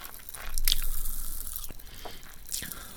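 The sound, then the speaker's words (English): Cola-flavoured Pop Rocks candy crackles and pops in a mouth: faint, scattered sharp crackles and small snaps over a soft fizzing hiss, with no talking. “a mouthful of cola-flavoured Pop Rocks. Straight away you can taste the difference.”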